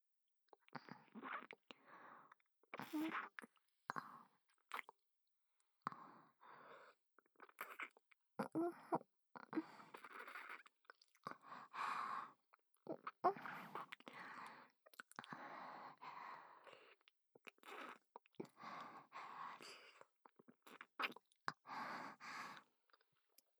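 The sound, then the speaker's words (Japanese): Soft, wet kissing sounds: many lip smacks and breathy pecks in an irregular stream with short pauses, kept faint and close, with no talking. “キス、うまいよ、ご主人様。その調子で、”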